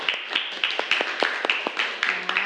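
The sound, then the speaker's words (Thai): A classroom of students applauds a classmate with many quick, sharp claps in an uneven burst over a couple of seconds. “ปรบมือเพื่อนหน่อยค่ะ”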